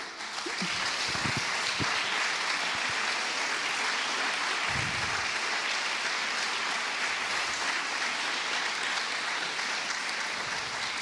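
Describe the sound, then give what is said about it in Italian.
Sustained applause, a dense and even wash of clapping hands that holds at a steady level from start to finish without pauses. “questo è un applauso che ancora mi commuove”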